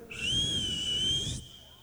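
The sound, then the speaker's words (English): A man gives a single sustained whistle as a signal beside an old B-25 bomber in a bean field at night. The high, clear tone holds steady for over a second after a brief upward slide, then cuts off. “Then he whistled.”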